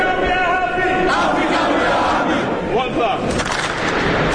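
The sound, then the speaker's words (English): Teenage basketball players at a camp cheer and shout a thunderous welcome to NBA coaches and players on their first day, a dense, sustained roar of many voices that stays loud throughout. “The 60 teenage players give a thunderous welcome to the NBA coaches and players on their first day”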